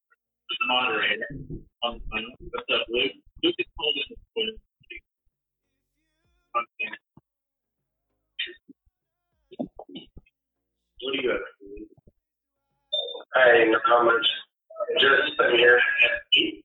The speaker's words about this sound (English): I can hear the TV in the background.